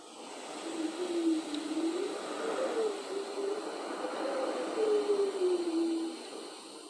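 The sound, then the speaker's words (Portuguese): Wind blowing, a steady broad rushing hiss with a wavering, whistling low tone that rises and falls throughout, continuous and fairly even in loudness for about seven seconds. “Sinta o vento que se movimenta. Dança. E canta com seu ruído inconfundível.”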